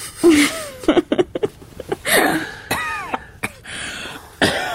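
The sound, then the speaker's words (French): A woman coughs in a run of harsh, throaty bursts, some choppy and quick, others drawn out with strained, voiced, whimpering tones, separated by brief gaps. “Ne tousse pas”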